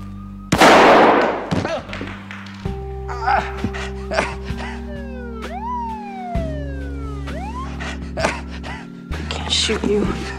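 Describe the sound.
A single loud gunshot cracks near the start, followed by sweeping siren-like tones and sustained low droning.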